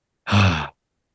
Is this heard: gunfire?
no

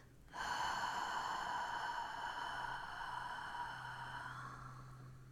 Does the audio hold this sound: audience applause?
no

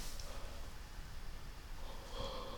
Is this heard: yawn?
yes

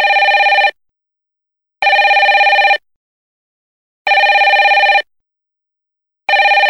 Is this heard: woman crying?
no

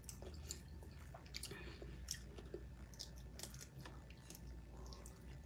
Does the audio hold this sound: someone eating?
yes

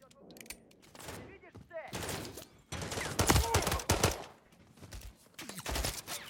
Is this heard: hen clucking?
no

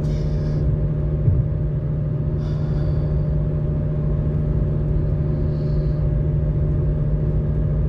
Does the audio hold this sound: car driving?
yes

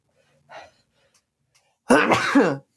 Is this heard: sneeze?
yes

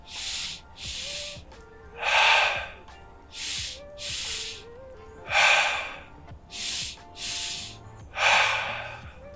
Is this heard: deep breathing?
yes

